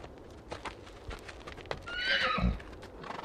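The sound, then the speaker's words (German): A horse neighs once among soft, scattered clip-clop hoof sounds as it is led on a rope. The whinny rises out of the hoof sounds near the middle and then fades. The sounds are faint throughout. “Er führte ein zweites Pferd an der Leine mit sich.”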